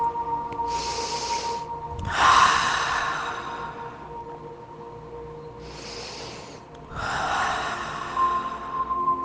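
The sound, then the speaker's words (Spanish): Deep, slow breaths, in through the nose and out through the mouth: two full cycles, each a soft hissing inhale followed by a longer, fuller exhale, over a low steady background. “vamos a hacer tres respiraciones profundas. Inhala por la nariz y bota por la boca.”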